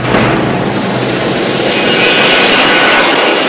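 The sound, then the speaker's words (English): An airplane coming in to land gives a loud, steady engine roar, a broad rushing drone that swells slightly as a brighter high whine rises in the second half, with no voices. “The silhouette of a plane coming into land across the moon.”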